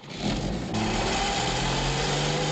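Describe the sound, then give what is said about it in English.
A small car engine revs as a couple speeds off in pursuit of a stolen Cadillac. The steady motor rumble grows louder and fuller after a brief opening and then holds an even, sustained drone. “In a smaller car, the couple speed off after the stolen Cadillac.”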